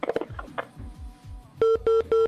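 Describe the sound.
A telephone line drops a caller on a live call-in: a few short, irregular tones and clicks, then three steady, evenly spaced beeps of the same pitch.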